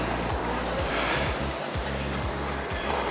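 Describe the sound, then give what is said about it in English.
Rowing machine flywheel whooshing under hard, high-intensity strokes, a continuous airy rush with regularly repeating surges and low rumbling pulses. “pushing hard with the legs isn't just about putting power into the machine. You should also get a faster drive speed from it and increase stroke rate.”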